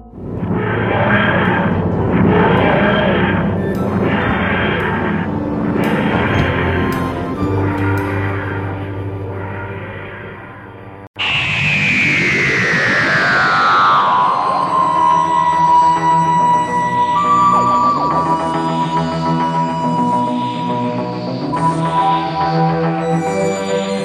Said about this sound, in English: That switch starts the takeoff sequence.